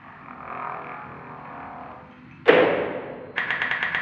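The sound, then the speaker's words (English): A pressure chamber door on a Mars lander slams shut with a heavy thud, then a rapid pulsing mechanical hiss sets in as it seals, over a steady low rumble. “You're clear for depressurization. Copy. Closing pressure chamber now.”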